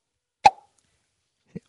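A mouth imitates a cork popping out of a bottle with one sharp, hollow pop, followed a second later by a faint, short sound.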